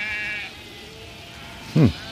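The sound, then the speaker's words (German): One short, wavering sheep bleat sounds near the end, fairly loud above a steady low background noise, with no voices. “Die Schafe singen. Es ist singen, der Gesang der Schafe. Singen die Schafe?”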